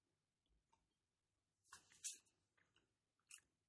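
Faint chewing of cheese right after a sip of beer, with a few crisp, crunchy mouth bursts standing out from near silence, the loudest cluster in the middle and one more near the end.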